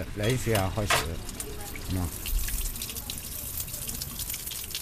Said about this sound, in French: le visage dans ce lavabo, ici. On mélange un peu d'eau froide, un peu d'eau chaude, et c'est prêt.